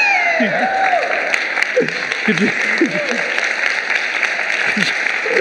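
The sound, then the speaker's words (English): An audience gives dense, steady applause to welcome a rabbi, with voices rising over the clapping throughout. “I would love my community to learn that you welcome the rabbi by saying, let's give a rousing hand for the rabbi.”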